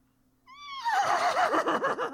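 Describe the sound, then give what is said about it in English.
A horse whinny serves as the call of a flaming dreadsteed, its mane and tail ablaze, in a tabletop game scene: a single loud, high neigh that starts clean, then breaks into a quavering, trembling whinny heard alone. “you see coming in from the back corner of the mausoleum, you see this horrific mane and tail ablaze dreadsteed come in out like from the edge,”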